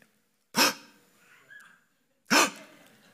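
Two sharp, startled gasps, each a sudden intake of breath performed by a person as a demonstration. Both are short and loud, with a quiet pause between them.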